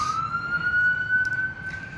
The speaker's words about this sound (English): and the sirens and the ambulances.